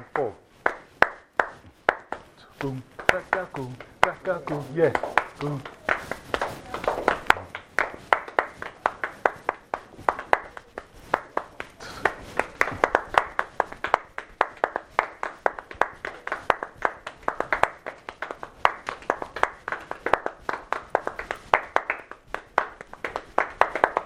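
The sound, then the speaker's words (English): An audience clapping hands together at a gathering with a bell, keeping a steady, even rhythm for the whole stretch. A brief tonal sound joins the claps early on. “Hey, please join us. Clap your hands.”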